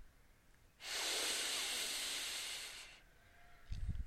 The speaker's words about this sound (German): Nimm nun einen tiefen Atemzug und atme mindestens 4 Sekunden lang ein.